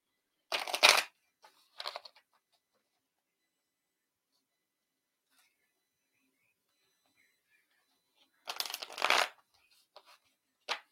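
A card reader shuffles a deck, with two quick bursts of riffling, a long silence, then another longer riffle.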